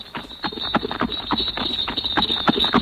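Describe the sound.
Horse hooves clip-clop in a steady, quick rhythm of many hoofbeats over a constant high-pitched whine.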